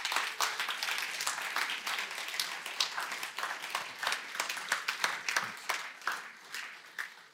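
Applause from a church audience at an Eldership Sunday service welcoming people onto the stage: many quick, overlapping claps, fairly light and steady, thinning slightly toward the end.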